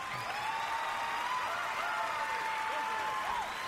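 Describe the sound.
An audience applauds to welcome the Southern Gospel groups Heavenbound, Gold City and Kingsman, with steady, even clapping sustained throughout.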